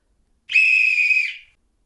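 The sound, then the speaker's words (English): A silver whistle hanging on a cord around a woman's neck is blown once in a single high, steady, shrill blast lasting about a second, alone in quiet. “So she blew upon her silver whistle that hung around her neck.”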